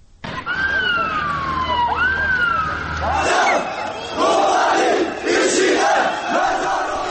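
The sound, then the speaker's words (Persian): A protest crowd in Istanbul chanting over Kobani, with a siren wailing in rising and falling sweeps at the start, then loud, rhythmic group chanting of many voices that continues to the end. “این صدایی هستش که از اعتراضات استانبول منتشر شده.”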